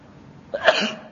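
A single sneeze during an Islamic religious lecture: one brief, breathy burst rising sharply from a quiet background, then fading within about half a second.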